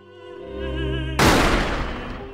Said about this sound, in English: then a pistol firing.